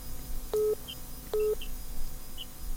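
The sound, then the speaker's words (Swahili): Two short, identical telephone line beeps about a second apart as a radio listener's call is connected, over faint steady hiss. “Shikilia hapo, shikilia hapo. Napokea simu ya msikilizaji mwingine.”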